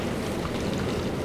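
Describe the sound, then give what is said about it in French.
Rising-tide waves wash onto the shore in a steady, unbroken rush of surf noise, soft and even across the brief stretch. “Le son que vous entendez, c'est celui de la marée montante.”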